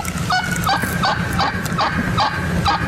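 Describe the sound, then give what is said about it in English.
Wild turkey call: a steady series of many nasal, honking notes repeated at an even rhythm, loud over a rough low rumble, with no voices. “I got some wild turkey.”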